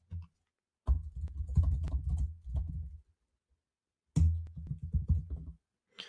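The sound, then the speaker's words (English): Typing a Google search on a computer keyboard: two quick runs of many light key clicks separated by a pause, with a single tap at the start and another at the end. “I'm going to do a Google search right now, live, for quotes on passion, and I'm going to see what comes up.”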